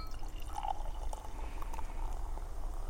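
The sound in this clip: Beer poured into a glass, a steady fizzing, splashing liquid stream that runs quietly through the whole clip with no talk.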